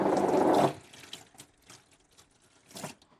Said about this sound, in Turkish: Ben şimdi ellerimi yıkayayım.